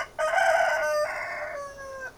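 An old rooster crowing: one long, drawn-out crow in a few stepped sections, heard alone and fairly clear.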